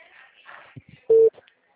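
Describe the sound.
A telephone line tone while a call is being placed: one short, loud, steady beep sounds briefly, with faint murmuring sounds before it and silence after.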